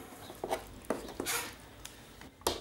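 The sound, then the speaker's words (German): Food being spooned from a cooking pot into a bowl, heard as a few faint clinks and soft scrapes with no talk. “So, ein bisschen tun wir jetzt in eine Schüssel.”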